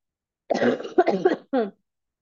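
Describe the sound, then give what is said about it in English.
A person coughs a few times in quick succession. The coughs are short, harsh and throaty, with brief gaps between them, and they stop abruptly with no talk around them. “please hold, I have to cough.”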